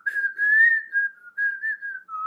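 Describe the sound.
A single clear whistle carries the melody of a western film soundtrack theme. Sustained notes glide gently in a few phrases separated by brief breaks, with no other sounds.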